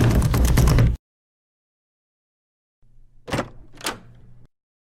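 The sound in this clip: A door is opened after someone calls at it. A short rush of noise comes first, then a quiet gap, then two dull clunks about half a second apart over a low hum.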